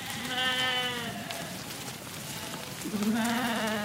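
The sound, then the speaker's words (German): Sheep from a large flock of several hundred animals bleat in a forest clearing. Two long, wavering bleats are separated by a quiet pause over a faint hiss. “Ein Schäfer in langem Umhang schreitet über die Waldlichtung, hinter ihm eine riesige Herde mit mehreren hundert Tieren.”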